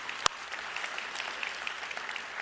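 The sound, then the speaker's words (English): Audience applause in a church welcoming a new full-time staff member: dense, steady clapping that fills the whole stretch, with one sharp clap standing out near the start. “So, welcome him to the team. Let's give Ryan a hand excited about him.”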